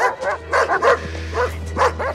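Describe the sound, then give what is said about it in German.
Dogs barking outdoors at night: a run of sharp, fairly loud barks and yips in an uneven rhythm, with a steady low hum underneath. “Mit Ihrem Bellen weckten Sie Mac auf.”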